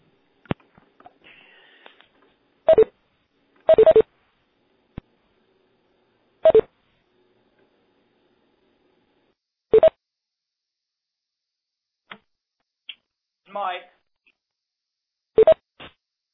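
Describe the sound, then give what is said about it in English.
Telephone keypad tones as someone dials back into a conference call. Several short, bright tone bursts come at irregular intervals, with scattered faint clicks between them and silence in the gaps. “Well, somebody already hung up. Okay, we're all hung up. We'll dial back in.”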